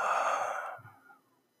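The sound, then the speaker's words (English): A deep breath drawn in and let out during a relaxation exercise: a soft, breathy rush of air that holds steady, then tapers off into near silence, with no talk. “So deep breath in. And out.”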